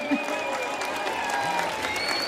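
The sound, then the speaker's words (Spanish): Audience applause at a live concert in Cartagena, a dense, steady patter of clapping from a crowd with a few faint cheers, with some voices beneath it. “Otro fortísimo aplauso para ellos, por favor.”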